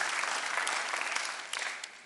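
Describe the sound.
A church audience applauds during a morning service, a dense and even clatter of many hands that slowly fades toward the end.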